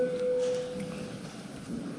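A steady electronic signal tone marks voting mode during a parliamentary vote on a defence financing bill; the single mid-pitched note holds for about a second, then fades into a low background murmur.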